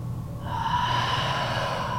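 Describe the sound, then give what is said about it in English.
A deep breath taken as part of a seated breathing exercise, heard as a long, steady, airy rush that runs alone and unbroken to the end, with no talk over it. “Take a deep breath in. Open your mouth, exhale it out. And do it again, inhale.”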